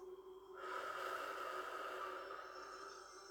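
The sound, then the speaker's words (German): A long, steady airy breath, drawn in through the nose and let out through the mouth during a guided breathing exercise, sustains as soft hissing airflow with no voices. “Wieder durch die Nase einatmen. Und durch den Mund wieder aus.”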